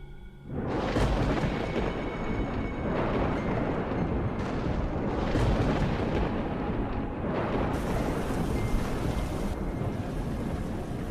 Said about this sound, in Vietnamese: Lại thêm một tia sét long trời lở đất, đánh như xé toạc cả tầng không.